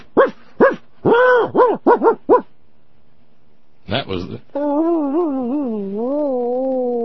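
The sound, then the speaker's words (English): A dog strapped to the roof of a family station wagon on a road trip to Canada: a quick series of short, yelping barks, a brief pause, another yelp, then a long, loud, wavering whine. “That was the sound his dog made up on top, strapped down to the top of the family station wagon on the way to Canada a few years back.”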